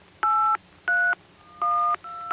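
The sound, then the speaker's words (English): Touch-tone keypad beeps as a long telephone number is dialed: a series of evenly spaced steady dual-tone presses, each clean and fairly loud, with brief quiet gaps between them. “we will be calling the universe. So bear with me, this is quite a long phone number, as you might imagine.”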